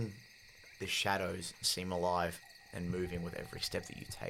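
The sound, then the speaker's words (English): Crickets chirp in a light breeze on a moonlit night, a steady high trill running faintly under a voice that talks throughout. “The chirping of crickets and the sway of the light breeze is only the real sound you hear.”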